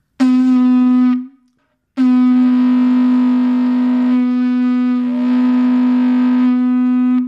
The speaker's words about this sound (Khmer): កញ្ចែនាវាបន្លឺឡើងក្រលួចហែកហួររាត្រីស្ងាត់